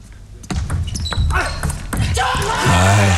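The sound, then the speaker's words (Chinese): Table tennis ball served and bouncing in a tense professional match at nine-all: a few sharp, crisp clicks of the ball on table and paddle, with commentator voices rising toward the end. “9平，现在梁靖昆发球”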